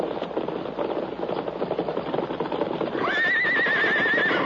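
A riderless saddled horse whinnies over steady clip-clopping hoofbeats. The hoofbeats run throughout, and the high, wavering neigh arrives in the last second and a half.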